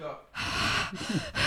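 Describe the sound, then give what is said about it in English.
Heavy breathing blown straight into a microphone: a few loud, rough, hissing breaths separated by brief pauses, each one forceful and breathy. “do you want me to breathe heavily into the mic? I can do that.”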